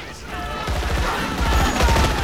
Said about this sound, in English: As the troops retreat, they fire at the bug.